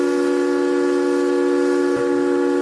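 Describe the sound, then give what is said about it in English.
A steamboat whistle sounds in one long, steady, unbroken tone, loud and even throughout, with a brief click near the end. “The sound of steamboat whistles was common,”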